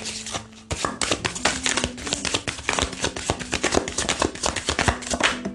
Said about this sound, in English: One more shuffle.